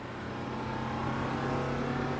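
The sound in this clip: Bus engine roaring as the bus speeds off down a street, a steady loud drone that swells slightly as it pulls away.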